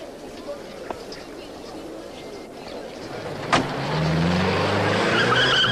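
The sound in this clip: A car pulling away: its engine noise swells after a sharp knock midway, then holds steady and loud with a low hum to the end.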